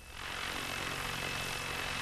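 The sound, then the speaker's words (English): An unmanned camera helicopter drone buzzes in flight, its rotors making a dense, steady roar with a thin high whine on top. The sound comes in quickly at the start and then holds level. “The chopper looks like a giant dragonfly when it's in the air. It buzzes around above us as Heumann tells it where to go.”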